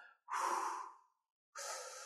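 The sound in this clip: Breathing through the nose during a breath-counting exercise: one long, airy exhale, a short pause, then a softer inhale, quiet and with no talk.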